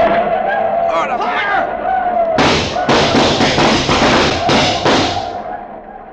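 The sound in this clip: A volley of rifle gunfire in a U.S. Cavalry skirmish. Shouting voices come first, then many loud, sharp bursts crack out in rapid, irregular succession before thinning and fading toward the end.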